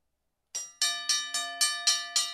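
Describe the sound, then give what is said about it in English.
A bell is rung in a quick, evenly spaced run of several bright metallic strikes. Each strike rings with shimmering overtones and decays briefly before the next, and no voices are heard. “Can you ring the bell? Oh, I can. Oh, yeah, I'll ring the bell.”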